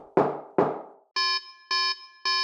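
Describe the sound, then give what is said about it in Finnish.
Two heavy knocks of a traditional door knocker, each a sharp thud with a short decay, followed by three loud, even buzzer tones at a door. “Tässä ei ole koodeja, vain tuommoinen perinteinen kolkutin. Kokeile. Kokeillaanpa.”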